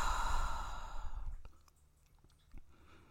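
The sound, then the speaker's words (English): A deep, sighing exhale from a group breathing exercise, loud and breathy for over a second, then fading to soft, faint breathing with a brief breath near the end. “So let's breathe together three times.”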